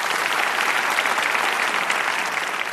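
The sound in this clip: An audience at a debate applauds as two speakers enter, giving a loud, even burst of clapping that carries steadily through without voices.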